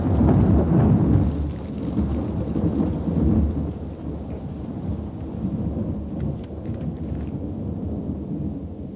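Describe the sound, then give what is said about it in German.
Thunder crashes after a lightning strike on a stormy night: a loud, deep rumble strongest at the start that rolls on steadily, with rain falling throughout and no talking. “schmetterte ein Blitz nieder, straßenweit die stürmische Nacht erhellend. Hinter ihm krachte, als risse er den ganzen Himmel mit sich heran.”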